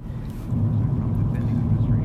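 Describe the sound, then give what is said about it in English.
Steady low rumble inside a car while driving, a continuous dense hum that swells slightly after the first half second and then holds even and unbroken. “I'm in my car, and I'm driving.”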